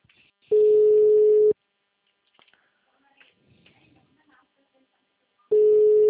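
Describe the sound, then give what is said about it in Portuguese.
Telephone tone after a dropped call: a steady, loud electronic beep sounds twice, each about a second long. A quiet gap between them holds only faint scattered noises, and the second tone is cut off at the end. “É, a ligação caiu.”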